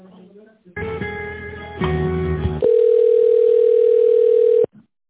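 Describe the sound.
Telephone line tones while a call is transferred: two short buzzy tone segments give way to a steady, unbroken pure tone held for about two seconds, with brief voice sounds just before and after.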